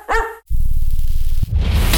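A single short, sharp dog bark opens a pet food advert, and loud continuous sound follows right after it.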